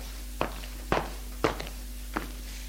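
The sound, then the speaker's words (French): Footsteps going down stairs, four distinct thudding steps at uneven intervals. They are fairly quiet over a low, steady hum, with no voices. “Long du couloir. Descend les escaliers”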